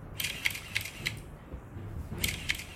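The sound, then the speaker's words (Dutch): Camera shutter clicks from a phone camera taking a selfie: a few short, crisp clicks in two quick bursts separated by a brief pause. “Kom, we nemen een selfie.”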